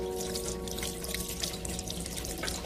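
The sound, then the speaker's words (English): Fingers are rinsed under running tap water, a soft, steady splashing hiss that continues evenly throughout, faint and with no talk. “First, some finger washing. Yeah, that comes right off.”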